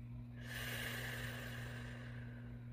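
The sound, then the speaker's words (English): A single deep breath in, a soft airy inhale that starts abruptly, holds for over a second and then slowly fades, quiet and alone. “And I know it's so simple, and I'm like deep inhale, exhale. Inhale,”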